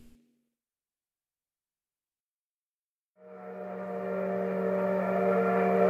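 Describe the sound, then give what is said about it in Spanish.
A train sounds as a steady droning tone with layered harmonics. It swells in after about three seconds of near silence and grows gradually louder to the end. “Corre el tren retumbando por los hierros de la vía.”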